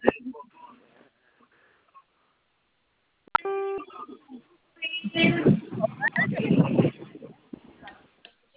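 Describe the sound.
A telephone keypad tone from pressing zero: one short, steady electronic beep with an abrupt start, between stretches of talk heard over a phone line.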